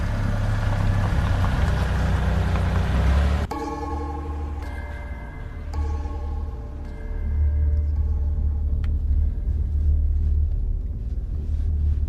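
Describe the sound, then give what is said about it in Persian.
A car engine rumbles deep and continuous as the car drives off, loud at first, then dropping abruptly to a quieter hum with faint tonal sounds above it, before swelling back up. “باشه، بیا تو امتحان کن، شما رانندگی کن. خب بزن بریم.”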